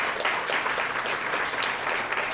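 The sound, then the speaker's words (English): A round of applause for an honoree at a city commission awards ceremony in a Hilton Garden Inn, with steady, dense clapping at a moderate level throughout. “Can we give this amazing individual another round of applause, please?”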